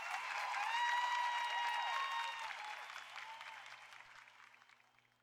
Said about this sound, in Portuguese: Uma salva de palmas, Fabinho Melo.